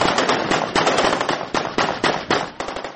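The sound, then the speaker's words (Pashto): Celebratory gunfire as hundreds of Afghan soldiers fire into the air in a district bazaar after retaking the district centre from militants. Many rapid, loud, sharp cracks follow each other in dense, overlapping bursts throughout, with no talk. “د افغان پوز په سلګونو سرتیرو د ناوی ولسوالۍ په بازار کې د وسلوالو څخه د دې ولسوالۍ د مرکز د بیرته نیولو په خاطر جشن نیولی او هوایی ډزې کړي.”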